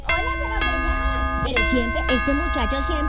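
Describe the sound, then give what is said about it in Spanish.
A doorbell rings with sustained, steady chime tones that restart a few times. People talk over the ringing throughout. “Están timbrando.”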